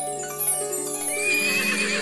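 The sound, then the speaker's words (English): A horse neighs in one loud, drawn-out whinny with a strong, ringing tone, heard alone without voices. “And when she opened the gate, there stood the finest horse she had ever seen.”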